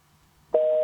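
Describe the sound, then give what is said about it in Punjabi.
A telephone busy tone sounds on a disconnected caller's line: after a brief near-silence, a single steady electronic beep cuts in abruptly and holds. “ਨਹੀਂ, disconnect ਹੋ ਗਿਆ, ਜਾਂ ਤੇ ਕਿਸੇ line ਦੇ ਵਿੱਚ ਥੋੜਾ ਬਹੁਤ ਕੋਈ ਫਾਲਟ ਹੈ।”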